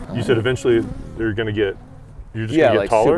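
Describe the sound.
Honeybees buzz in an opened hive that has had several stacked boxes lifted off, a steady droning hum running beneath people talking.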